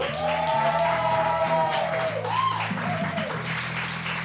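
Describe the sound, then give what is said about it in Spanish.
Live audience cheers and applauds with a shouted yeah and whoops over steady clapping, fading slightly toward the end. “Tenemos un público excelente aquí en el Tractat que suena así como ya lo escucharon.”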